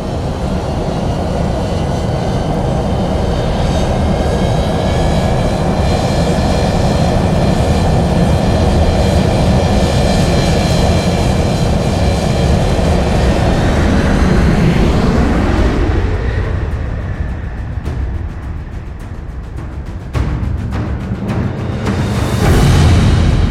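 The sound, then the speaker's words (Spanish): An airplane taking off: a loud, continuous engine roar with whining tonal layers that holds steady for a long stretch and then shifts near the end, with no talk. “Disfruten de su vuelo sin peligro de acuatizaje. Cerrando con puertas. estamos listos para el despegue.”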